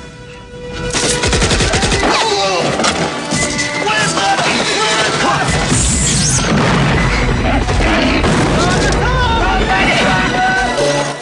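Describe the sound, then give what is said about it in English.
Russian tanks open fire in a battle scene from the film Rambo, with heavy booming blasts and bursts of gunfire. The dense, loud barrage runs continuously, with repeated explosions layered over one another. “Troutman gets to his feet as the Russian tanks open fire.”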